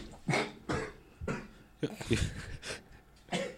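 Coughing and spluttering from someone who has just inhaled a drink, a run of many rough, wet bursts in uneven rhythm, fairly quiet, with some voiced sounds mixed in.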